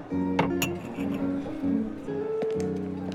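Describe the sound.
Glasses of beer clink as they are served: a few sharp, bright glassy clinks over a steady low tonal hum.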